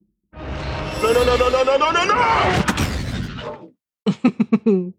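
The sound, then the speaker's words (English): An explosion sound effect, a kaboom: a loud, roaring blast that rumbles on for over three seconds before cutting off. “I love that kaboom at the end. Kaboom.”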